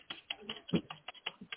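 Rapid, irregular clicking of fingers typing on a computer keyboard, a steady patter of light keystrokes that sounds thin and fairly quiet.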